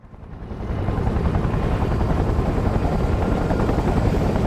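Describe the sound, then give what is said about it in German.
Steady, loud engine-and-rotor drone of a propeller aircraft flying over the Channel, swelling up during the first second and then holding an even, rumbling roar to the end. “Beim Rückflug schaltet er mitten über dem Kanal den Bugpropeller aus”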